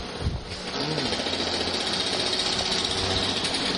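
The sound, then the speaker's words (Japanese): Construction work next door to a theater produces a loud, continuous mechanical whirring drone, like a running motor. It stays steady throughout with a rough, buzzing texture. “隣で工事をしてるから急に音がしますけれども”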